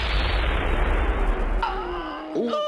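An enemy gunshot in battle lands as a loud, rumbling blast that decays over about a second and a half before other tones take over.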